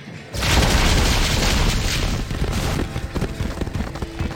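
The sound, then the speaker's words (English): A video game explosion blasting through walls bursts in with a loud, sudden boom, then a dense, crackling roar that holds steady before thinning into choppier rumbles. “So we blasted through the walls again.”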